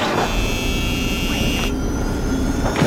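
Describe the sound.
Aircraft engine roar for a pretend cockpit take-off: a steady, loud rushing noise with a high whine that cuts out partway through, after which a duller roar carries on.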